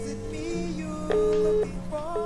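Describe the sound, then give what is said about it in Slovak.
Ringing tone of an outgoing telephone call: a single steady mid-pitched beep of about half a second, set against a background of music-like sustained tones. “Volám bývalému prezidentovi Slovenskej republiky.”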